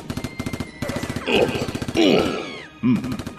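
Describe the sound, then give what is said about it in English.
Rapid gunfire in quick machine-gun-like bursts with short gaps between them, broken by swooping, whining tones, all fairly loud. “The bullets they're firing do pack quite a whop, but they still can't penetrate my force field.”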